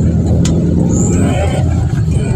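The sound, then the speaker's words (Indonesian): Dense road traffic with many motorcycles during the afternoon rush hour, a steady loud rumble of engines and tyres that holds without a break throughout. “Ini volume roda 2 yang sudah mulai banyak”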